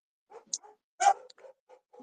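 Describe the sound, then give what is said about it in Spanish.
Excited dogs bark and yelp in several short, uneven bursts of varying loudness. The strongest cry comes near the middle, and no one speaks over them. “Perdón por los perros que se alocaron.”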